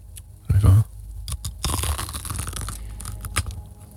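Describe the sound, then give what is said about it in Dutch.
A bite into a crispy sauerkraut croquette with ham: one loud crunching snap, then softer chewing, rustling and crumbly mouth sounds. “Even. Hij hapt al goed. Oh, er zit ook ham in. In de zuurkoolkroket.”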